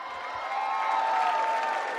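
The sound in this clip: Audience applause and cheering for a singer at a live show in Malta, a steady dense wash with a sustained tone running through it at an even level.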